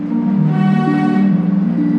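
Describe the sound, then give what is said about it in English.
A train horn sounds one loud, sustained, chord-like blast that holds steady for about two seconds with no other sounds around it. “End of time. A train.”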